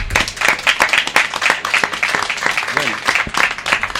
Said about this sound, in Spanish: un aplausito para Lucio.